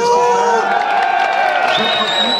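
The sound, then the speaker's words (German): A crowd at an election centre in Geneva reacts with loud, continuous shouting and whooping, mixed with scattered claps, as a party founder arrives surrounded by supporters. “Applaus hat sich gemischt mit dem Abpfeif-Konzert.”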